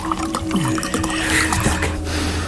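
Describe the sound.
A precious liquid being poured makes a continuous trickling, splashing flow for about two and a half seconds over a low steady hum.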